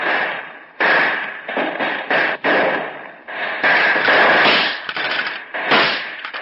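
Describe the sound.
Rifle gunfire in a shootout between gangsters and police: loud bursts of sharp, crackling shots come in irregular clusters with brief gaps between them. The sound has a thin, band-limited quality and carries no voices.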